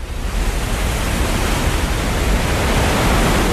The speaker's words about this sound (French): Ce bruit, c'est celui de l'eau qui arrive dans un bassin. Nous sommes sous une plateforme qui donne sur le bassin, dans un tunnel.